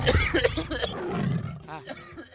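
A lion roars in a deep, rough, growling burst that is loudest at the start and then trails off into lower, uneven rumbling.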